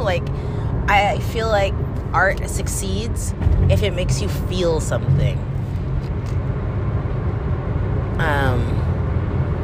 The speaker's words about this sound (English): It's really interesting recording this while I'm driving, because I know it's going to sound terrible, first of all.